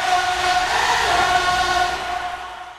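A train at a railway station gives a steady, rumbling tonal drone that holds for a couple of seconds and then fades out at the end.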